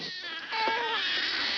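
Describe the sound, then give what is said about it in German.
Babies crying aboard a submarine: a sustained, tonal wail that holds a fairly steady pitch and grows louder after the first half second, with no talk. “die Geräusche von dem U-Boot hören sich an wie Babyschreie. Hat der Funker gesagt. Weiter abhören.”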